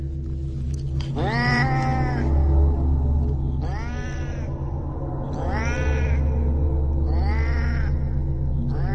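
A cat meows four times in long, wailing calls, each arching up and then down in pitch, over a steady low hum.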